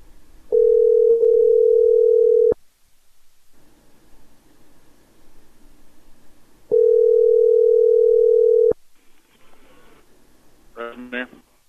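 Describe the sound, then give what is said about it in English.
Telephone dial tone heard while dialing a number: two steady, unbroken hums of about two seconds each, separated by quiet rustling and followed by a short cluster of higher, wavering tones near the end. “Let's dial this number.”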